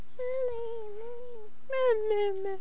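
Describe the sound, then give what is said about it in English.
A pet cat, seemingly in a bad mood, gives two long, drawn-out meows, each a faint mid-pitched cry that sags slightly in pitch toward its end. “And there's our kitty, huh? Is that our kitty?”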